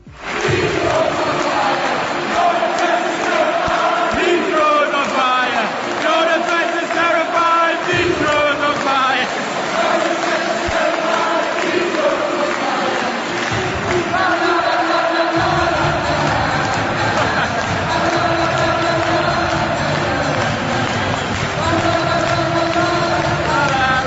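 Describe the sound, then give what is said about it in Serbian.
Football fans in a packed Newcastle stadium cheer and chant, a loud, sustained crowd roar with sung, tonal voices running unbroken throughout. “Još 30 sekundi za Aleksandra Mitrovića, prepun stadion Newcastle, navijači su ga ispratili ovacijama.”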